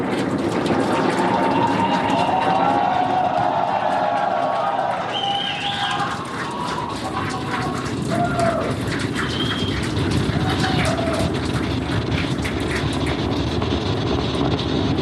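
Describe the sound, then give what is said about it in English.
A Falcon 9 rocket launches carrying the crewed Dragon capsule on the Polaris Dawn mission, a dense, crackling roar that holds at an even, loud level throughout. “Vehicle is pitching downrange. Stage 1 propulsion is nominal.”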